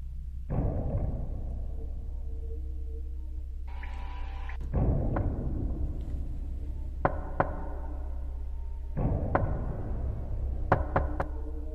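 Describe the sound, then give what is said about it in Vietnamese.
Knocking from outside repeats in irregular bursts over a steady low hum. Sharp raps come seconds apart, several of them in quick pairs. “Tiếng gõ như đang thôi thúc cô đứng dậy, cứ chốc chốc lại vang lên.”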